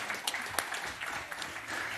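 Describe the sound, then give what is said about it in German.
Audience applause for a prize winner at a gaming quiz event: a faint, steady patter of many clapping hands lasting the whole two seconds. “einen großen Applaus für Nicole.”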